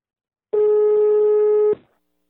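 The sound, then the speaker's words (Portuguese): A single steady telephone ringback tone sounds as a call is placed, one loud, even, mid-pitched beep of just over a second, with nothing else around it. “Eu agora vou ligar. Vamos ver se pega!”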